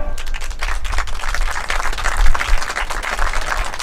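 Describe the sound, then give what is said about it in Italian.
Audience applause after a sung performance, dense clapping from many hands that stays fairly even in loudness throughout. “Applauso meritato.”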